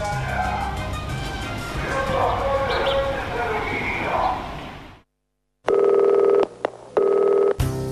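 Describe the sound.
Telephone dialing and ringing tones: two loud, steady electronic bursts come after a short silence. Before them are several seconds of voices over dense background sound.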